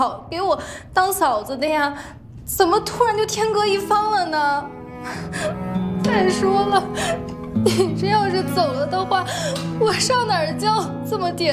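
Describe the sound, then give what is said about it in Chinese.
Crying and sobbing from a distressed young woman in a dramatic scene, with halting, trembling vocal sobs, catching breaths and whimpers in uneven bursts that rise and break throughout. “别哭了。”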